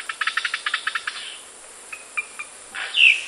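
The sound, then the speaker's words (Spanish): Insects chirp outdoors in a field, opening with a rapid run of short, high, evenly spaced pulses, followed by a few scattered thin chirps and a brief louder chirp at the end. “¡Qué insectos tan bonitos! Desearía que mamá me dejara tener uno.”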